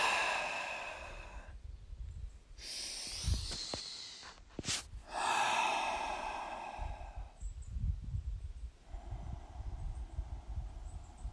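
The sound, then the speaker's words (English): Deep, slow breaths drawn in and let out, faint and airy, a few long breaths separated by pauses with a soft sigh-like sound between them. “3 deep breaths.”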